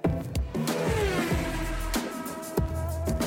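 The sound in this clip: Race car engines roar on a track, a steady loud drone with a few sharper surges as cars sweep past, heard alone without talk.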